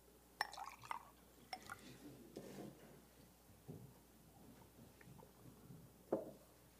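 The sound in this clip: Water being poured, faint and quiet, with a few sharp clinks and light trickling splashes spread across the stretch.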